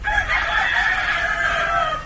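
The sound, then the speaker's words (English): Chickens crowing: a rooster gives a long, sustained, strained cock-a-doodle-doo that holds steady and loud for the whole two seconds, with no talk over it. “These chickens, unbelievable.”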